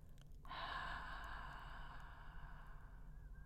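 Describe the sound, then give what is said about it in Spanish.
A slow, deep breath in a guided breathing exercise, heard as one long, soft, breathy sound with a faint voiced, sighing tone. It begins abruptly and holds for about three seconds at low volume, with no talk. “Vuelve a inspirar lenta y profundamente y exhala con un pequeño sonido en la exhalación.”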